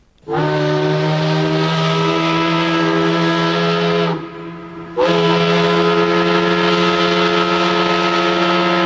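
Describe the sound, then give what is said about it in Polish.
A loud factory whistle at dawn in Łódź, a harsh, sustained, harmonic-rich tone that briefly dips and wavers near the midpoint before resuming at full strength until the end. “Pierwszy wrzaskliwy świst fabryczny rozdarł ciszę wczesnego poranku, a za nim we wszystkich stronach miasta zaczęły się zrywać coraz zgiełkliwiej inne”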